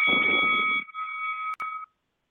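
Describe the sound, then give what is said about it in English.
A first-time caller intro jingle for a radio show: a steady electronic chord of bright tones over a rough noisy burst, then the tones ring on alone, cut by a short click, and stop abruptly. “I'm gonna get and play this first time caller intro.”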